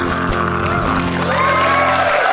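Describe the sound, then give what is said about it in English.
Audience applause mixed with cheers and whoops, loud and continuous, over a sustained tonal background. “And applaud that.”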